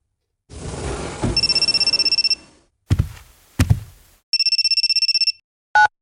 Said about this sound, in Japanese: あ、電話か。姉貴から？なんだろう。